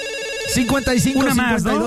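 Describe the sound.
A telephone rings with an incoming call on a live call-in show. The electronic ringtone warbles in quick, wavering pitch swoops that start after a quiet lead-in and continue loudly to the end.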